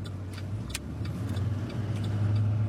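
A car drives the back roads near Winslow, giving a steady low engine drone and road rumble throughout, with a few faint higher ticks over the top.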